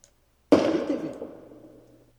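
A single loud gunshot in a staged dramatic scene: one sharp, sudden bang followed by a long, decaying rumble, with no other sound around it.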